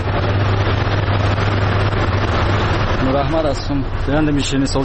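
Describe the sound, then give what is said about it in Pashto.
A sweets-making machine in a confectionery workshop gives a steady, loud low mechanical hum, with a voice starting up over it partway through. “له یو شیرنۍ جوړوونکي سره وغږېدلو د نوموړي خبرې د شیرنۍ جوړولو د ماشین په غږ پیلېږي”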